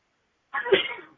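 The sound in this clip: A single sneeze bursts out abruptly, loud and breathy, peaking quickly and trailing off within about half a second after a silent lead-in.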